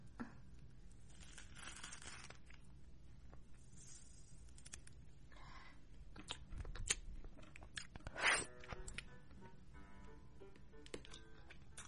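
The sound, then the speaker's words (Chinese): A banana being peeled, with quiet, scattered crisp tearing and crackling sounds and one brief, louder rip later on. “现在我要把香蕉剥开来了”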